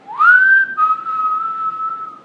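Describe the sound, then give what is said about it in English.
A person whistles a short personal signal call. A quick upward sweep leads into a bright held note, then a slightly lower note is sustained to the end. The clear whistle is heard alone. “I have this whistle that I do. When I'm halfway down the block, I already start going,”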